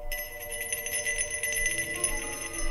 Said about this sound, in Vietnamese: đích thân thầy Tấn thắp mấy nén nhang, rung lên một hồi chuông, miệng thầy ngâm nga mấy câu thần chú.